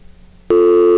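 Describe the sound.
A telephone busy tone after a caller hangs up: faint low noise, then halfway through a loud, steady electronic tone cuts in and holds to the end.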